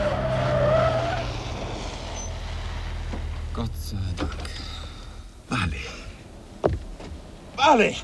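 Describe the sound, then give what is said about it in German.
A car brakes hard at a level crossing with red flashing lights, its tires skidding and squealing in several sharp bursts over a steady engine drone. “Der Bahnübergang! Rotes Blinklicht! Bremsen!”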